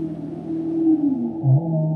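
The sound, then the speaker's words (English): Humpback whale song: a few low, drawn-out tonal moans whose pitch glides, heard alone without other sounds. “The humpback whale, like the one visiting this boat, has a distinctive song. This recording was provided by the WhaleSafe team.”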